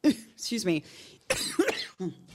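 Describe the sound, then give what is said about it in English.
A lingering, persistent cough: several harsh, voiced coughing bursts mixed with throat clearing, coming in short irregular fits. “the cough that won't die. The cough that will not go away ever.”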